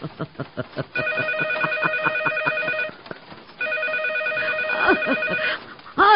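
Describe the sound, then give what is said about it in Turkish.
A telephone rings in two long bursts of bright, warbling bell tone, separated by a short gap, with brief other sounds before the first ring and after the second. “Telefon.”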